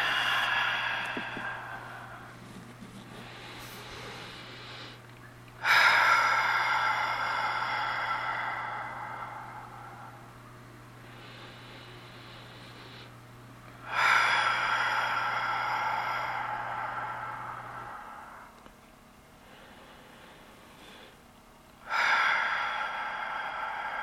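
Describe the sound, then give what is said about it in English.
Someone takes slow, deep breaths, long airy inhales and exhales rising and falling in an unhurried cycle, over a faint steady hum. “We're going to begin by taking some long, slow, deep breaths in order to center ourselves.”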